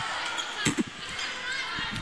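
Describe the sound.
A volleyball serve struck for an ace by the Yellow Jackets in a match: two short, sharp thumps close together, rising briefly above a steady wash of crowd noise.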